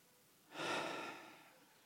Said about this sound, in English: Take a deep breath right now.